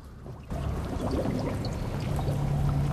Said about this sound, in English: leaps over the railings and dives into the water below.